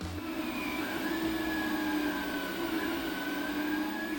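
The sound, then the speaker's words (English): A 3D printer runs with a steady mechanical whir, its few sustained tones drifting slightly in pitch at an even, moderate loudness, with no talking. “What you're hearing is the sound of a printer. A 3D printer, which is the focus of Troy University's newest course offered this fall.”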